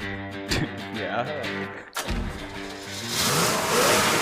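Corvette engine revving: the engine's tone swings up and down, dips briefly near the middle, then builds into a louder, rising acceleration roar.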